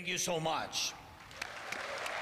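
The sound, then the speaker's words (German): Thousands of people gathered outside the Danish parliament clap and cheer. A short stretch of speech comes first, then a steady, even wash of applause. “Am Mittag vor dem dänischen Parlament. Tausende jubeln, als der Parlamentssprecher einen, wie er sagt, großen Helden unserer Zeit begrüßt.”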